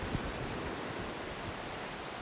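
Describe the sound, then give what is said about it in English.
Waves crash on a beach cove on a windy day, a steady, fairly faint roar of surf with no distinct breaks standing out. “a larger one with crashing waves.”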